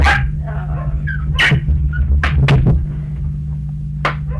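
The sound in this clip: A dog whimpers and lets out a few short, high yips at irregular moments over a steady low hum.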